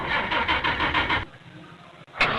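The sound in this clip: A car engine starts with about a second of loud, rhythmic cranking pulses, then settles into a quieter, lower running sound before a brief loud burst near the end.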